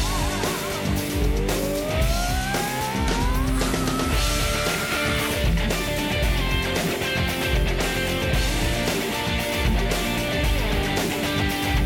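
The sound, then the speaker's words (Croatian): A car accelerating and driving away, its engine revving with a rising pitch over the first few seconds, mixed into a steady rhythmic music beat that runs through the whole clip. “Dodaj gas i odlazi od nje, još dalje od mene.”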